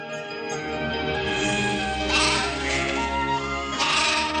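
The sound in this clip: Sheep bleating while grazing at the foot of the mountains at sunrise: a few wavering bleats rise over a continuous droning background.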